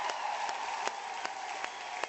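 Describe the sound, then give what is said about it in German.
Crowd applause for a group of people: a steady, dense wash of many hands clapping with a few sharper accents, running loud and continuous from start to finish. “Und jetzt mal einen fetten Applaus hier für die Leute.”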